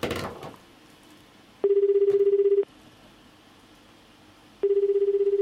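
Telephone ringback tone while waiting for an answer on a call from Yokohama, Japan: a steady mid-pitched tone sounds for about a second, falls silent for roughly two seconds, then sounds again and runs to the end.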